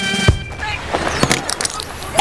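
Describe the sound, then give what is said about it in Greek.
Mobile phone dropped, its screen breaking: a sharp hard impact is followed by a few brittle cracking and splintering clicks. “σου έπεσε το κινητό. Έσπασε η οθόνη.”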